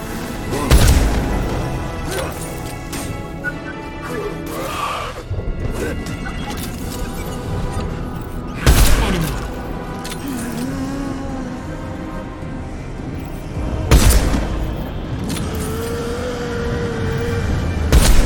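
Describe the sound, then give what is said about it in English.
Sniper rifle shots in a video game: a few sharp, loud booming cracks spaced several seconds apart over steady, busy game noise. “Sniper rifle. Take that. Let's reload.”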